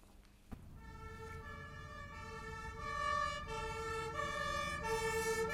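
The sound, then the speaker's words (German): A fire brigade siren sounds faintly and continuously, a sustained, steady wailing tone that grows slightly louder partway through, with a brief click near the start. “Mist, gerade jetzt die Sirene”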